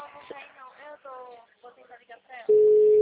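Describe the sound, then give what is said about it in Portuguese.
A telephone ringing tone follows a stretch of people talking, a steady single-pitched electronic tone that sounds loudly and holds to the end. “Tá chamando”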